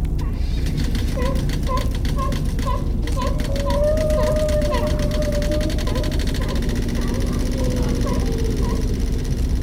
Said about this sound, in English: You can use some algorithms on the spectrogram to strip out the ice noise, and seals barking, and boats rumbling, until you isolate what it is you really want.